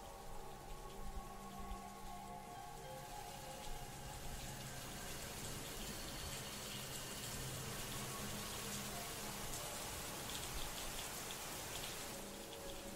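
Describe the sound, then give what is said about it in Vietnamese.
Rain falls steadily outside a house at night, a dense, even hiss of drops on surfaces that holds at the same level for the whole stretch, with no voices. “Ngôi nhà chìm vào trong tăm tối, chỉ còn lại tiếng mưa rơi ở bên ngoài.”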